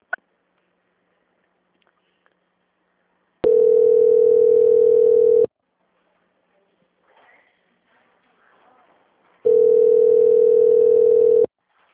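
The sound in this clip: Steady telephone tone after a transferred call dropped: two long, unbroken, mid-pitched beeps of about two seconds each, separated by a quiet gap with faint rustling.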